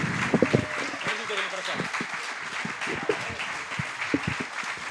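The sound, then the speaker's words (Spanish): An audience applauds to welcome a guest: dense, steady clapping fills the whole clip, with a few sharper claps standing out. “queremos pedir un fuerte aplauso para el amigo Eduardo Risso. Eduardo, bienvenido.”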